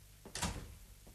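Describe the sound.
A door being shut: a short, soft bump followed by a broader thud and rattle lasting about a quarter second, then near silence with faint background hum.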